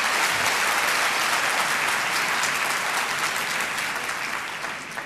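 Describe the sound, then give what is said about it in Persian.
An audience at a talk on stress applauds themselves after a breathing exercise: dense, loud clapping that fills the whole clip and eases off slightly at the end. “ماشاءالله برای خودتون دست بزنید”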